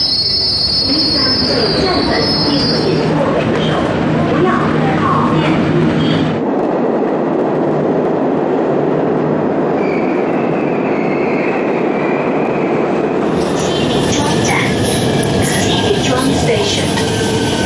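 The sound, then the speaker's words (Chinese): Subway train arriving at a metro station: loud, continuous rolling rumble with high, shrill wheel squeal at the start that fades, then returns and rises again toward the end. “开往安河桥北及沿途各站的列车将进站。”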